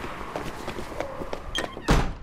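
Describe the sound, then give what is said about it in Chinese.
A door is shut against a draught: a single heavy thud near the end, preceded by a few lighter knocks and rustles. “把门关上，有过堂风。”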